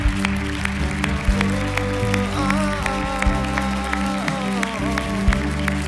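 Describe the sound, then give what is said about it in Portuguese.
A church audience applauds to praise God during a worship service, scattered claps running under sustained instrumental tones that hold steady throughout. “Você pode aplaudir ao Senhor. Aleluia.”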